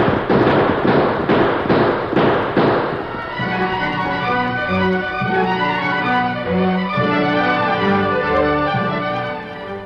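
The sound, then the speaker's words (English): Gunfire rings out in a shootout: a rapid, loud series of sharp cracking shots fills the first few seconds. The shots then give way to a sustained, steady tonal sound. “We're going in shooting.”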